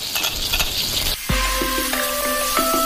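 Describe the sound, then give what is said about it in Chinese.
Pickled cabbage fries in hot coral chili pepper oil with a loud, steady sizzling hiss and crackle throughout. “用珊瑚椒油爆香酸菜，再加上大量的蒜末”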